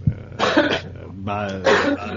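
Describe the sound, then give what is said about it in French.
Someone coughing and clearing their throat during a French spoken interview: a few rough, voiced, throaty bursts of moderate loudness, with the last one drawn out longer. “Attendez, il y a quelqu'un qui tousse”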